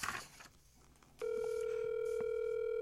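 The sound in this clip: A phone call placed on speakerphone gives a steady, unbroken tone that starts about a second in, after a stretch of quiet low noise, and holds level to the end.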